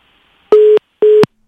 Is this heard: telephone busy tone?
yes